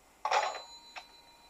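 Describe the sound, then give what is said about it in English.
A rotary phone receiver dropped onto its cradle gives a loud clunk with a bright bell-like ring that lingers, followed a moment later by a second, softer ting. “And after dropping down the receiver onto the phone, which gives that lovely, satisfying, ringing, clunking sound because it's a rotary phone”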